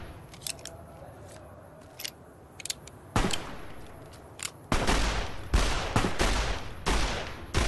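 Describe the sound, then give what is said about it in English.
Gunfire from the Fallout video game during a street shootout: a few faint sharp clicks at first, then louder bursts of shots that grow denser and heavier toward the end, with no talk. “all right, so Orris is running down the street here. He's just all of a sudden shooting at somebody.”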